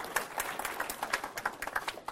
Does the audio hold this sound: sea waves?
no